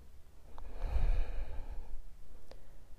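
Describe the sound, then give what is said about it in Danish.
A long, deep breath taken during a yoga side stretch, a soft, airy rush that swells and fades over about a second, with a couple of faint clicks before and after. “Og trækker vejret. Lange indåndinger og dybe udåndinger.”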